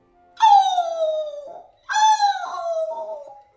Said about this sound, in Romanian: din întâmplare îi ieși înainte o cățelușă bolnavă ca vai de capul ei și slabă de-i numărai coastele